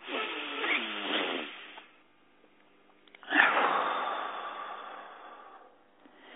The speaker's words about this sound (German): Dann einatmen, ausatmen, weitwerden.